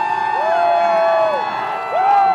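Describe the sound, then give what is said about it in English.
Fans cheer and whoop at a Red Sox World Series victory rally with duck boats in Boston, with long sustained voiced whoops rising over a steady crowd roar. “A duck boat rolling rally, this time to celebrate a World Series title for the Red Sox. WBUR's Lynn Joliker was in the crowd today as fans got to cheer on their favorite players.”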